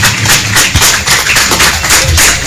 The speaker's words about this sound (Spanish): Así que les vamos a dar un fuerte aplauso a ellos, que ya descansan en paz